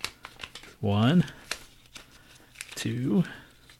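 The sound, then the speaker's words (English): A small sheet of paper is folded in half again and again, giving crisp crinkles, rustles and sharp creasing snaps between stretches of people talking. “Here's a sheet of paper. Fold it. And I'll fold mine. It's a small sheet of paper, though.”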